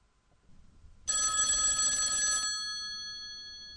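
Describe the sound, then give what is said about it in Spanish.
A telephone ringback tone on an outgoing call to an iPhone: one steady, bright electronic ring lasting over a second, then cutting off and leaving a fading tail before silence. “Una llamada. Segundo tono.”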